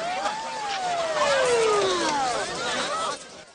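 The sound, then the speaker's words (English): Police patrol cars driving through a crowded street, heard as steady vehicle noise with several overlapping wailing tones that glide up and down in pitch. “The police drive the residents back to the Riley's Cafe building. Crowds have gathered, and the cops have to clear them to allow the patrol cars through.”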